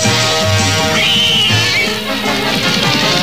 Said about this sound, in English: Mind the cat.